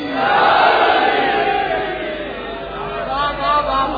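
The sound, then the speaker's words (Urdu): A crowd at a majlis roars in unison in answer to the Naara-e-Haidari chant. Many voices shout loud and sustained, swelling early, dipping in the middle and rising again near the end. “نعرہ حیدری”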